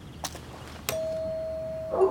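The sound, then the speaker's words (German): A doorbell rings at a front door: a brief click, then a clear, steady electronic tone held for about a second, ending in a short brighter burst. “Okay, ich klingel mal.”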